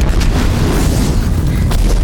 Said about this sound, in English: As the explosion tosses the closest militant vehicle